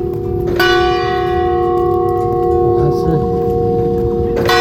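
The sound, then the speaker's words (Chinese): Automated bell ringing on a campus: a loud, resonant chime that rings on in a long sustained hum, with a fresh strike near the start and another near the end, over outdoor background noise. “钟声响咯，我们就边走边听。”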